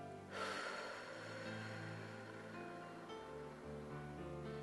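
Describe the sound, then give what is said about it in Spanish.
A long, deep exhale released after a held breath during a guided breathing exercise: a soft, steady, breathy rush of air that stays quiet and even for several seconds. “Y aguanta. Y exhala.”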